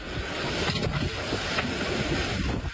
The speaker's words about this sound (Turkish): Rüzgarın şiddeti cep telefonu kameralarına yansıdı.